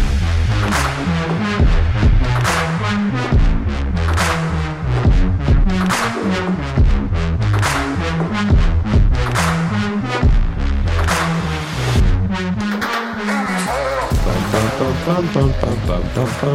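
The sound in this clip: Audio from a Netflix movie trailer for Zack Snyder's sci-fi film Rebel Moon, with loud, heavy, pulsing music and booming hits under dramatic spoken lines, dense and continuous throughout.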